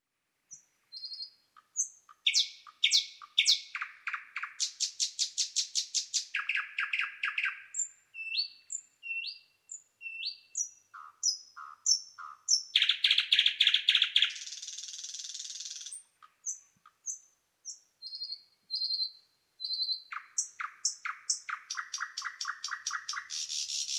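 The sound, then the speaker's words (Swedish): A nightingale sings a long, varied song of rapid repeated notes, trills and bright whistles in clear, loud phrases separated by brief pauses, with no other sounds. “Näktergal.”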